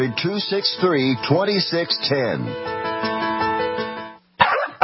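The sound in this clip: A dog in a pet advert gives several short yelps and whining barks with wavering pitch, then holds one long, steady howl that cuts off abruptly.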